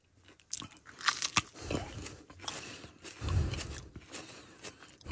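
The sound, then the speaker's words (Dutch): Biting and chewing the tip of a hot chili pepper: a few crisp crunches, then softer chewing and mouth sounds, faint and with no talk over them. “Dat vinden mensen altijd leuk op de radio als er wordt gegeten.”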